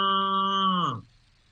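A calf moos to its mother cow, one sustained, tonal bellow lasting about a second that sags in pitch as it ends, followed by quiet.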